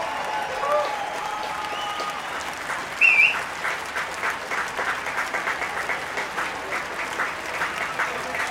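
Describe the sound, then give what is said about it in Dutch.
Audience applauding after an evening concert on an opening night, dense sustained clapping that swells early on and stays steady throughout. “Ja, het publiek is razend enthousiast en terecht.”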